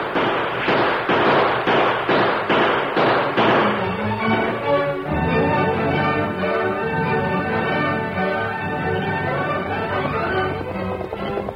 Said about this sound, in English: Take one of my guns. They're shooting at us.